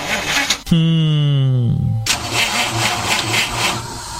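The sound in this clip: A car engine starting: a brief thump, then about a second of the starter cranking with a slightly falling whine, before the engine catches and settles into a steady, loud running rumble.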